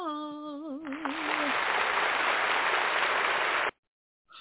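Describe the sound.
Studio applause for a talk show guest, a dense wash of clapping that swells and holds steady for a few seconds. It comes right after a short wavering electronic tone, then cuts off abruptly.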